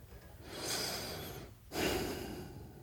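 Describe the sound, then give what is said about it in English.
Breathing through the nose in a silent room: two soft, airy breaths, the second starting a little more sharply, alone with no voices. “I can't even like breathe through my nose because it's so loud.”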